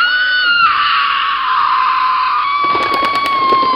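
A woman screams in terror in a jungle: a loud, sustained, high-pitched shriek that holds steady for several seconds.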